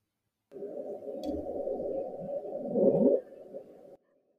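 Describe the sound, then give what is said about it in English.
The Bloop, an unidentified underwater sound sped up sixteen times, plays as a single droning tone of about three and a half seconds. It swells to a rising sweep near the end, then cuts off. “It became known as the bloop. It was a long, rising sound that has to be sped up 16 times so that our ears can perceive it.”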